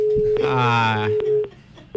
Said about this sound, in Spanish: Ahí está, se queda la llamada. Es el problema del teléfono.